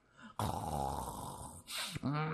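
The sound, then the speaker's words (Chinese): A voice imitates the snoring of an old Taoist priest asleep slumped over a table: a long, rasping, droning snore, a short breathy intake, then another snore begins. The sound is quiet throughout. “老道趴在桌子上睡着了，哎，导爷醒醒醒醒，这一推不要紧，老道不但没醒啊，反而呼噜起来”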